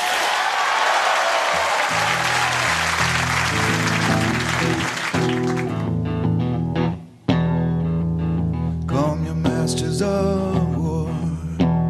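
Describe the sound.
Loud audience applause and cheering welcome a band back onstage, a dense wash of clapping for about five seconds before the band kicks into amplified music with sustained guitar chords and a steady rhythm.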